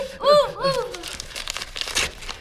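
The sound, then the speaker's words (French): A paper envelope is opened with bursts of crinkling and tearing paper, many quick dry rustles that follow a brief voice at the start. “Oh, une enveloppe! Encore une enveloppe!”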